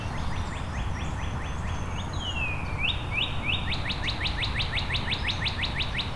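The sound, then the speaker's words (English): A loud male northern cardinal sings clear, piercing whistled phrases: a run of repeated slurred notes, one long descending whistle, then a faster series of sharp repeated notes over a steady background hiss. “It's a very loud northern cardinal.”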